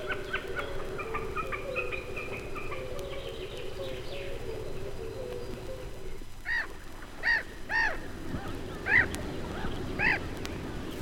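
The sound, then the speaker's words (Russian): Common snipe calls come as a few short, harsh, repeated notes with uneven gaps, heard over a steady buzzing background. “А это голос бекаса.”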